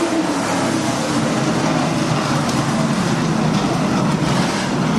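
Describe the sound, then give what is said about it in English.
NASCAR race cars roar through the first lap of a race, a loud, continuous engine drone that holds steady without breaks from start to finish. “Now for the NASCARs. Now you get noise.”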